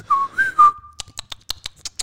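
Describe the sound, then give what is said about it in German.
A person whistles three short, bright notes in quick succession, followed by a fast run of sharp, dry clicks. “So wie das gerade pfeifen war.”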